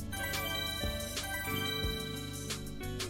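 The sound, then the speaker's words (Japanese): An electronic email notification chime plays as a short run of bright, bell-like tones over a soft sustained backing. It stays fairly quiet and steady. “おっと、ここでメールが届きました。”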